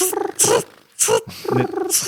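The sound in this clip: A human voice imitates a cricket chirping with several loud, short, raspy and whiny vocal bursts separated by brief gaps.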